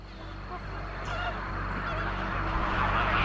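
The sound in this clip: Caribbean flamingos calling: a loud, steady wash of many overlapping goose-like honks that runs unbroken through the whole clip.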